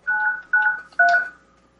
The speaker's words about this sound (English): Going to hear the DTMFs here? Yes, we do. We hear the DTMFs.